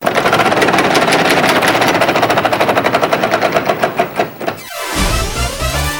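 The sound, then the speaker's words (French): A big prize wheel spinning in a phone-in contest gives off rapid, loud, steady ticking that gradually spaces out as the wheel slows, then stops near the end. “Parfait, nous faisons tourner la grande roue qui va peut-être vous faire gagner.”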